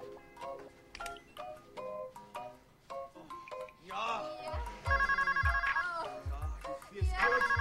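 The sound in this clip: A telephone rings with an electronic ringtone, sounding in repeated bright bursts while people talk over it.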